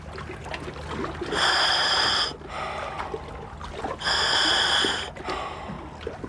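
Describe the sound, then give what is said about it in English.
Breathing through a scuba diving regulator: two loud, hissing inhalations drawn through the mouthpiece, each about a second long, separated by quieter, rougher exhalations, giving a slow, even rhythm. “The air goes through this tube and through a hole in the mouthpiece, which is called a regulator, and you just breathe on it normally, like this.”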